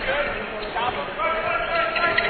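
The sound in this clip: A basketball is dribbled during a game between Northwest and Fort Hays State in Hays, Kansas, with repeated bounces heard under continuous talk.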